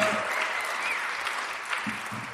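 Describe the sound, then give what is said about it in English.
An audience at a quiz show gives a contestant a sustained round of applause, a steady, even wash of clapping from start to finish. “Ladies and gentlemen, give it up for Kim Knott, yeah.”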